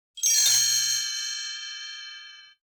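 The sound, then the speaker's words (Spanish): A single bright bell strike from a clock chiming midnight rings out alone, its clear metallic tone sustaining and slowly fading over about two seconds. “De pronto, el idilio fue interrumpido por las campanadas de medianoche. ¡Tan! ¡Tan! ¡Tan!”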